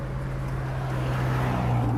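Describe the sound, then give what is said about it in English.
A noisy blue Toyota Matrix driving up to a gate, heard as a steady, loud, low engine drone with a rough, rumbling texture that holds throughout, with no voices. “as my sister and I drive up to the gate in my noisy blue Toyota Matrix”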